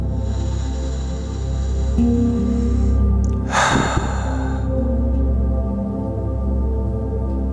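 A deep inhale through the nose, taken during a guided meditation, rises as one brief breathy rush over a steady, sustained tonal music bed that continues throughout.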